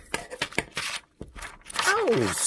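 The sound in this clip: Scissors snip through painted paper in a few crisp, quick cuts, followed by a person talking.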